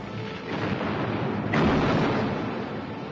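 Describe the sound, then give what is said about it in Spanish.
Naval artillery salvo as the battleship HMS Prince of Wales opens fire on German ships including the Bismarck: a continuous low rumbling roar, broken midway by a sharp heavy boom that swells louder, then slowly fades. “El Prince of Wales abre fuego contra los alemanes.”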